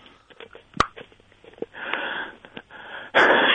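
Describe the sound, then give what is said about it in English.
A voice modulator with dead batteries sputters out garbled, wheezing hiss with scattered crackles and sharp clicks, swelling into a louder rasping burst at the end. “Sounds like someone's voice modulator doesn't have any batteries.”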